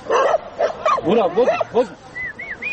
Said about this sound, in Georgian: ეს ლაგოდეხი ბაისუბანის დამაკავშირებელი უღელტეხილია. აქ 10 წელზე მეტია 30-მდე ძაღლი ბინადრობს.